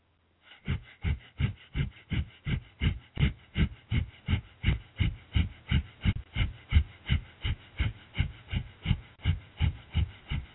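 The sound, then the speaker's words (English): Breath of fire yoga breathing: many rapid, forceful exhalations in a steady, evenly spaced rhythm, each a short puff of breath heard alone and fairly quiet. “Press upward with your hips such that your torso is parallel to the ground. Your fingers are pointing backwards, away from your feet. And start breath of fire.”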